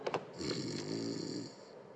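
A man snoring while asleep on a sofa at home after eating and drinking all day: one drawn-out, rumbling snore with a buzzing, throaty rattle, after a couple of short breathy onsets, with no talk.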